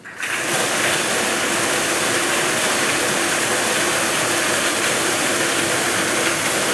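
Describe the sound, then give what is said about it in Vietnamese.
Five lottery ball drums spin together during a Kien Giang lottery draw, giving a loud, continuous rattling whir that starts abruptly and holds steady with no pause or voices. “Giải này được quay 5 lòng cầu và quay 7 lần. Sau đây là lần quay thứ nhất, mời 5 em quay số.”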